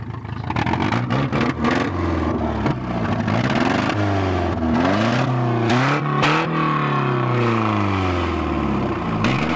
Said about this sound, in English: A faulty exhaust pipe can sound like this.